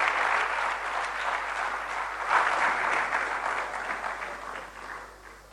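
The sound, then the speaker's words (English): Audience applause at a convocation as a speaker is welcomed to the stage: dense, steady clapping from a crowd that runs throughout and eases slightly toward the end. “Please put your hands together for Bernard Mona.”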